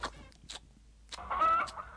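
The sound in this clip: A human voice imitates an eagle's cry: a few short breathy bursts, then a longer rough, squawking screech, fairly quiet overall.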